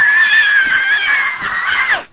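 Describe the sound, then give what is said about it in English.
A man vocally imitates someone screaming and hollering, letting out a continuous high-pitched, strained scream for about two seconds that drops off sharply at the end. “He's just screaming and hollering. He runs down the aisle. He gets right on national TV going just like this.”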